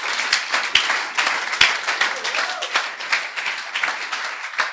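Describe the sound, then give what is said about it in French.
Congregation applauding the Lord at a morning church service. A dense, steady patter of many hands keeps a fairly even loudness, with a few sharper individual claps standing out. “Est-ce qu'on peut acclamer le Seigneur ce matin?”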